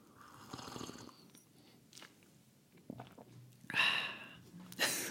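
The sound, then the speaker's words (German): Someone drinking coffee, with a few short slurps and swallows separated by quiet pauses, the last ones louder. “Einen Moment, ich muss ganz professionell einen Kaffee trinken, weil Kaffee ist ja bekanntlich das beste Getränk für Podcastaufnahmen.”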